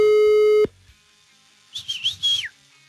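A telephone ringing tone on an unanswered call gives one steady, loud electronic ring. After a pause comes a brief, warbling, high whistling sound.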